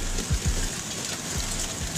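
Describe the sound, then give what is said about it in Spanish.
Hail falling in Córdoba, played from a video: a steady, dense hiss of pelting ice with a few low thumps mixed in. “parece nieve, pero no es nieve, ¿eh? Es granizo. Esto pasó en Córdoba.”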